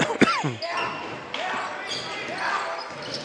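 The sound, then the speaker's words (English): A basketball dribbled on a court during a game: a few quick, dull bounces near the start, followed by steady crowd noise. “A couple of dribbles, picked it up. Now hand it to Butler. Butler, Harris. Harris dribbling right to Fowler.”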